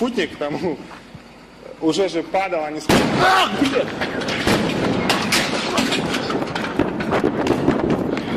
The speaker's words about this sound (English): And we can laugh because no one died, but this is a compilation of the blast videos.